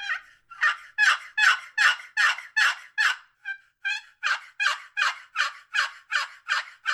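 Raspy yelps from a box call used for turkey hunting, a long steady series of loud high clucking notes in even rhythm with a brief pause midway through, no voices.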